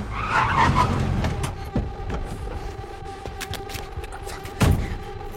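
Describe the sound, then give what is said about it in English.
A car skidding and squealing its tires as it swerves through traffic and stops outside an apartment, with a low rumbling engine under scattered sharp crackles and a heavy thump near the end. “Swerves traffic and stops outside the apartment.”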